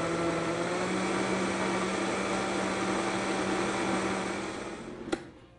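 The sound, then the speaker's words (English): A blender purees hot liquid with a steady, loud whirring drone and an underlying hum, fading slightly near the end before a single sharp click. “slowly brought the speed up so it didn't start too quickly and blow that hot liquid up towards the lid. Okay, now that we got it rolling, let's go ahead and really puree that.”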